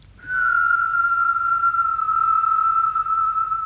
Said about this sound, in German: Gerade noch aufs Gymnasium, ein Gedicht lernen, ein Lied, pfeifen.